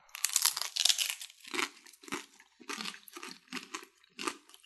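Crisp crunches from biting into and chewing a crispy Burger King taco: a loud, dense crackle at the start, followed by many shorter crunch bursts in an uneven rhythm, with no talking.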